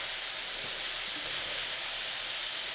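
Shrimp and mushrooms sizzle while cooking in a pan, a steady, dense hiss that holds evenly at moderate loudness for the whole stretch with no talking.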